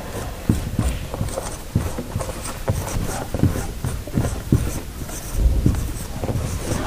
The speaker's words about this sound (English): Okay, here, let me write this up on the board again.